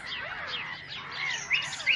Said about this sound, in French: Le silence a fait place au cocorico du coq, au caquettement du canard, chant harmonieux du rossignol, mais aussi aux cris de la mouette et au piaillement des moineaux.